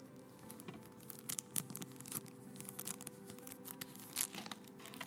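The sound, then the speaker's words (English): Faint crinkling and rustling come from the unopened plastic wrapping on a DVD case as it is handled. Many small, irregular crackles spread through the whole stretch over a steady low hum. “You can hear the plastic still on it.”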